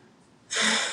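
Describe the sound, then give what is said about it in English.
A person takes a quick, sharp breath in: a sudden breathy rush that starts halfway through and holds steady to the end after near silence. “Oh, I thought you had another one coming. You took a breath.”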